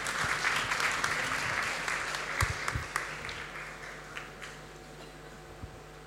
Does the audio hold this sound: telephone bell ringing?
no